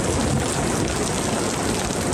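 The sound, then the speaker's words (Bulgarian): Heavy rain pours down during a powerful storm at Sozopol, making a dense, unbroken hiss that stays loud and even from start to end. “Мощната буря не подмина и Созопол.”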